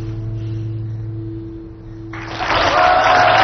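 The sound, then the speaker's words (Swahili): A crowd cheers after a performance: a low steady hum gives way partway through to a sudden, loud, broad roar of crowd noise. “Alikuwa amemaliza burudani. Watu wanashangilia kweli. Burudani ilikuwa ni kubwa.”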